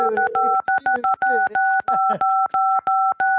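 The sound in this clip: A telephone keypad is pressed repeatedly, making many quick electronic key tones. The same bright paired pitch is broken by sharp clicks in a fast, uneven rhythm, with some low voice-like sounds mixed in during the first half.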